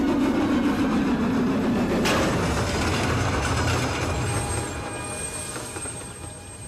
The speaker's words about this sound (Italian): Non hai messo a punto la locomotiva, fa uno strano rumore.